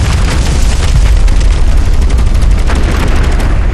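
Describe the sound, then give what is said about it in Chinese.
Machine-gun fire rattles in a video game, a loud, unbroken stream of rapid shots with a heavy booming low end that lasts the whole stretch. “这机枪扫射，我一定被盯上了”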